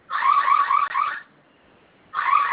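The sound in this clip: Electronic beeping from a security alarm panel after its F key is held for five seconds: a loud, steady buzzing tone sounds for over a second with a brief break, stops for under a second, then starts again.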